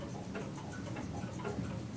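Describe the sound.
Clocks tick softly and steadily in a watchmaker's shop. Many faint, quick ticks overlap against a low, constant background murmur, with no speech heard.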